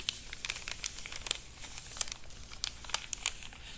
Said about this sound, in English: find it to be sealed with a tissue paper and held in place with this gorgeous glittery purple butterfly sticker, complete with wire antenna.